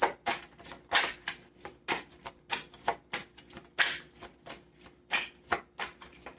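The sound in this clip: Tarot cards are shuffled and drawn, producing many crisp, papery riffling and slapping bursts in a quick, uneven rhythm with short pauses between them.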